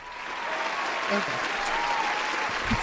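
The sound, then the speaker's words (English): Applause fills the whole stretch as dense, steady clapping at an even loudness, with faint voices underneath. “Lots of applauses tonight.”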